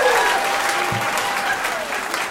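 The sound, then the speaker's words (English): A live audience bursts into applause for a woman in the crowd at a comedy show: loud, dense clapping that holds steady throughout, with a single low thump near the middle. “Let's have a round of applause for the lady who agreed to sleep with us for the next 40 years.”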